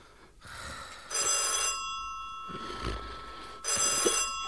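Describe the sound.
Telephone bell ringing in two loud rattling bursts separated by a pause, over faint background noise.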